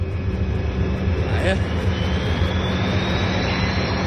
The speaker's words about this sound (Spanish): Allá va mi amigo, el avión.